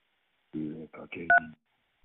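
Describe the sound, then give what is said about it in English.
A single short telephone keypad tone from pressing 1 on a phone line's caller menu, a brief clear beep that overlaps the end of a short stretch of speech. “To connect live with this caller, press 1.”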